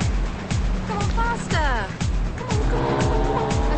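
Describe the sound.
A car speeds into a roundabout, its engine revving loud and steady with squealing tires throughout.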